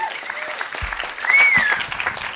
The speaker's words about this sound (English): So a round of applause for that.